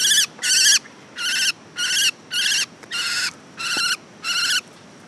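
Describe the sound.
A small silvereye caught in a forest mist net gives eight harsh, high scolding calls in an even, evenly spaced series, each burst loud and buzzy against quiet background.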